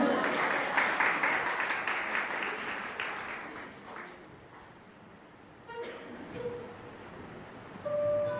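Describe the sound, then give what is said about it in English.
Audience applause at a live fado concert. Dense, loud clapping fades steadily over about four seconds into near quiet, and then a voice is heard. “We do one more clap for you all.”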